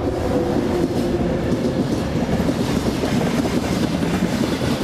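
Rolling roar of a lightweight, light-alloy passenger train running on rails, a dense, loud rumble with faint clattering texture that stays even throughout, no voices.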